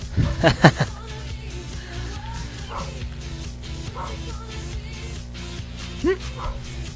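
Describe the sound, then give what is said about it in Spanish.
A neighbour's dog barks and yips in a quick burst of several sharp calls at the start, then one more yelp near the end, over a low, steady background hum. “Ese es mi perro. Ah, no, es el de mi vecino.”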